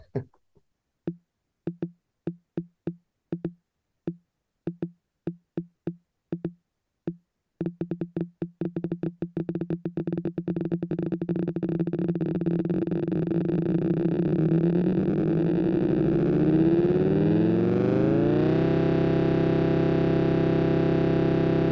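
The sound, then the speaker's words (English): Sharp clicks come sparse and evenly spaced at first, then repeat faster and faster until they fuse into a continuous, loud, buzzy chord that holds steady to the end, with no voices. “when it starts, it just sounds like a load of clicks, but by the end, it's a chord”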